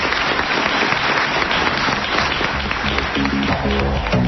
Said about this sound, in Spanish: Lugo te aplaude y te lo agradece.